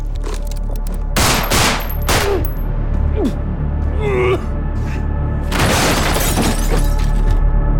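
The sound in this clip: Several loud bursts of gunfire cut a man down, with sharp breaking-glass crashes and voices crying out between the volleys over a steady background din.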